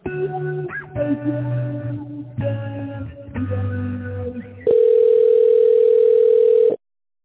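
A telephone line plays while a call is transferred: a melodic electronic tune of sustained synthetic notes, followed by a steady, loud single-pitch tone lasting about two seconds before it cuts off abruptly.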